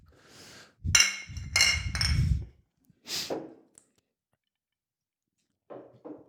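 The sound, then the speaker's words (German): Beer bottles clinking together in a toast between two people drinking store-bought beer: a few bright, ringing clinks in quick succession, then one more after a short pause, with a faint sound at the very end. “Sei es wie es sei, wir trinken noch gekauftes Bier. Ja, Prost. Prost.”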